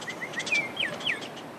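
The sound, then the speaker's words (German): Birds chirping in remote mountains of New Mexico: several quick, high, thin chirps in a loose sequence, faint over quiet background noise. “Vögel zwitschern, Grillen zirpen.”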